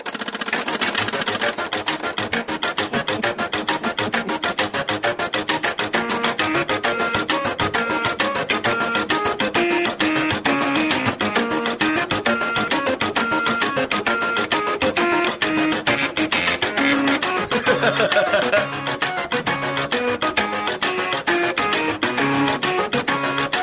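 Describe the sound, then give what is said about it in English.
A melody is played on old computer parts and disk drives programmed to make music, their motors buzzing and chattering in pitched mechanical tones, dense and continuous for over twenty seconds with no voices. “disk drives, and he programs it to do sounds for songs. Here's the Airwolf theme played on old computer parts.”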